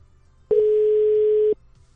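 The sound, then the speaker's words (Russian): Telephone call tone heard while redialing: one steady, mid-pitched electronic beep about a second long, starting and stopping abruptly between quiet stretches. “Попробую еще раз ему позвонить”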